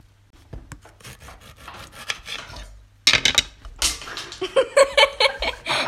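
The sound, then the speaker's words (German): A knife cutting kiwis: a run of rasping, scraping strokes, soft at first and then louder and sharper, with short knocks and clicks of the blade. “jetzt schneiden wir erstmal die Kiwis”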